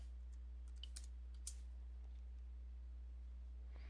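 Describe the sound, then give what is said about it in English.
A few faint computer mouse or keyboard clicks, short and sparse, over a steady low electrical hum. “Give me a second to click into it.”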